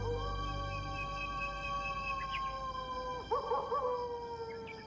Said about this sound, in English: Is that a coyote? Yep.